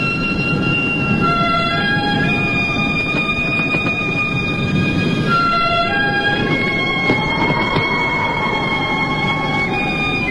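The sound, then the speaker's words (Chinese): A train runs with a steady, loud rumbling roll, with sustained high squealing or whistle-like tones that shift between pitches over it and no voices. “两个刑警压着耕作坐上火车。”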